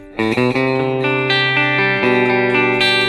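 Electric guitar played through a boost effect from an effects app: a few loud, sustained and slightly driven notes and chords ring out one after another, each with a shimmering tail.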